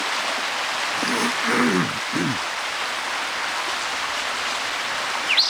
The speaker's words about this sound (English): Bad creek noise.